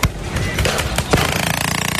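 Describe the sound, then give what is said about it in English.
Bangs of tear gas and smoke bombs in a street clash in Los Angeles: a few sharp, loud cracks over a dense, noisy din, then a fast burst of rapid rattling pulses. “Here is footage of what you would think is a war zone overseas, but no, it's just Los Angeles on a Saturday. Listen and watch this. Tear gas, smoke bombs,”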